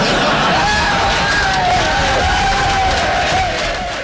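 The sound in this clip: Celebrating football fans at a nationwide World Cup party in Norway rush past in a dense, loud roar of cheering, whooping and shouting. The noise holds steady throughout and eases slightly at the end.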